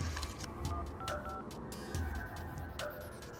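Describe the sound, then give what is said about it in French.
Telephone keypad tones dial 911 in a few short beeps that sit over a steady, noisy background hum. “Vers 19 heures, il compose le 911.”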